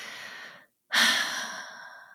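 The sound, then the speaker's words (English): A deep breath taken amid heartfelt remarks: a soft airy stretch, a brief silence, then a louder, longer breathy rush that slowly tapers away. “Taking deep breath because I feel very passionate about it.”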